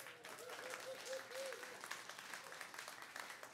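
Audience applause welcoming a preacher: soft, steady clapping from many hands that continues throughout at a low level.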